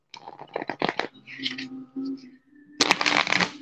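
Playing cards being shuffled: crisp, rapid riffling bursts at the start, a softer stretch in the middle, then a dense, loud flutter of cards near the end.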